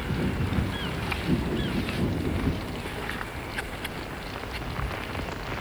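Rain pattering on a tarpaulin, a dense steady hiss of drops broken by occasional sharper ticks, continuous and fairly loud with no voices.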